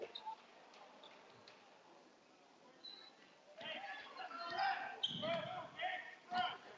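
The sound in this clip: Faint thumps of a basketball being dribbled on a court during a boys' high school game, a few soft, irregular bounces that grow busier toward the end over low background noise.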